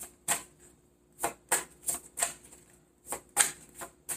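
Cards are shuffled during a card reading until two cards fall out: many faint, crisp snapping riffles in irregular short bursts, with no talk.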